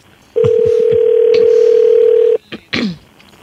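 A telephone dial tone sounds as a call is being placed. The steady, unbroken tone holds for about two seconds and then cuts off, followed by a couple of brief clicks.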